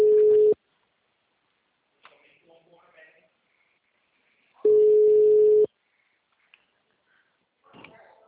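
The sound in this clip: A telephone line tone after a dropped call: two steady, mid-pitched electronic beeps, the second one longer, with faint voices murmuring in the gap between them.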